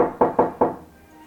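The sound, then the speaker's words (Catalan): Three sharp knocks on a house door during supper, loud and evenly spaced, then silence with no voices. “A casa de l'Helena estaven sopant com cada dia i algú, de cop, va trucar a la porta.”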